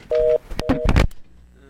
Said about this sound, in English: Phone's off. They hung up.